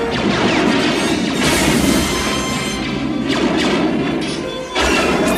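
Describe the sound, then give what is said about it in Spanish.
Gunfire strikes control systems during a shootout with guards, setting off smoke and sparks. A dense, loud, continuous barrage of blasts, crashes and impacts runs throughout, with no talking. “Luke y Han disparan sobre los guardias, el oficial y los sistemas de control. Disparan contra las instalaciones del control, creando nubes de humo y chispas.”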